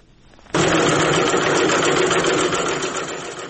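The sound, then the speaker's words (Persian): Sewing machines running as ten young women stitch face masks in Faryab province, Afghanistan: a loud, steady mechanical whirring clatter that starts abruptly after a brief quiet moment and continues evenly, easing slightly toward the end. “این صدای چرخ ماشین های خیاطی است. ده دختر جوان فاریابی مشغول دوختن ماسک هستند.”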